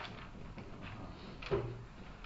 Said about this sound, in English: I move my chair.